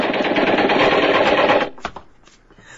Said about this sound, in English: Stop or we'll shoot! Stop or we'll fire!